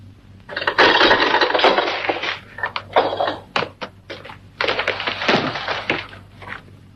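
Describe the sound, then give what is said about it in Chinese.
An iron prison door is opened with a dense run of heavy clanks, knocks and rattling scrapes. A brief lull falls in the middle before another busy cluster of metallic impacts. “铁门被打开了，几个宪兵杀气腾腾地出现在门口。”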